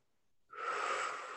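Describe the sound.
A single breath drawn in during a guided self-acceptance meditation, a soft, airy inhalation that starts abruptly after a near-silent moment and then holds steady, quiet and unaccompanied by speech.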